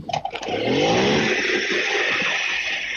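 A small motorbike engine starts with a few irregular clattering bursts, then settles into a loud, steady buzzing run with a brief upward rev.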